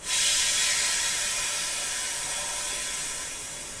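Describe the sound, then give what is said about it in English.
Pressure is released from a leaf pressure chamber: a sharp onset into a loud, steady gas hiss that gradually thins and tapers off over about four seconds. “and then I release the pressure out of the chamber.”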